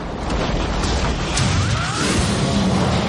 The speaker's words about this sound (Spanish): Un enorme bloque de nieve se rompe de repente y se queda balanceándose en el borde de una caída de 120 metros hacia las rocas de abajo.